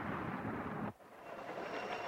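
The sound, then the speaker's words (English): A train fleeing an avalanche rumbles loudly, then the roar cuts off abruptly as it enters a tunnel, giving way to a duller, quieter rumble that gradually builds again. “The train enters the tunnel with not a second to spare.”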